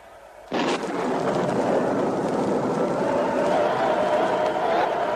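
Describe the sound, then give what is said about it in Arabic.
The Tower of Babel collapsing onto people, a radio-drama effect that begins with a sudden loud burst and then becomes a dense, sustained roaring rumble that stays loud to the end. “مولاي، ما هذا الصوت الهائل؟ البرج، برج بابل يا مولاي، انظر إنه ينهار، ينهار على الناس.”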